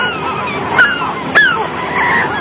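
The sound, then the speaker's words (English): Birds honking, with a couple of sharp, nasal honks standing out over a steady, noisy background of more calling. “Birds. The birds!”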